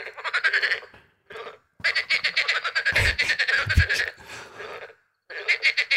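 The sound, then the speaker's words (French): Loud rattling croaks of a frog species common in southern areas in summer, coming in several dense pulsed bursts separated by short pauses, with no talk. “Vous avez une grenouille qu'on entend énormément l'été, qui fait beaucoup, beaucoup de bruit.”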